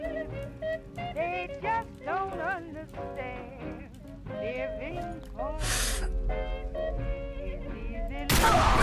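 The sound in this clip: Gunshots in a shooting video game, fired as a headshot, come as a couple of sharp, loud, noisy blasts, the last one the loudest. A man talks over steady game sound.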